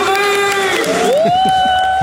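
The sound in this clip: An audience cheering and applauding to welcome a comedian at a cabaret show, a loud, dense, unbroken wash of crowd noise with a sustained tone that rises partway through.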